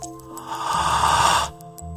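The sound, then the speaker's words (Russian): One long, deep inhale during a guided meditation, a breathy rush that swells and then stops abruptly, set over soft sustained background tones with light chimes before and after. “мы делаем глубокий вдох.”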